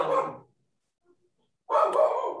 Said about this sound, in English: okay, my dog wants to join the podcast.